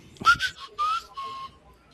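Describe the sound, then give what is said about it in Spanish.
Whistled musical notes made while farming aura in a video game: a few short, clear, high whistled tones in quick succession, heard alone. “Sí, muchas veces acompañado de un particular chiflido. De una nota musical. Es. Mientras haces el farmeo de aura, haces el chiflido A.”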